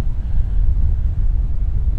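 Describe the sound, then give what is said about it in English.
Chilly cold wind blowing with sleety wet snow, a steady low buffeting roar that gusts unevenly without a break. “So it's a really chilly cold wind blowing. And there's a bit of sleety, cold, wet snow in the wind.”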